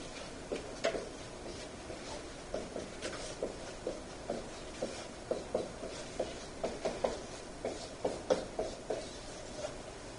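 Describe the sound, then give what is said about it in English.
Hand-drawing of a diagram: many short, scratchy drawing strokes in an irregular, halting rhythm, fairly quiet, with no talking. “I'll draw it up here real quick, but I'm going to be quiet for our microphone.”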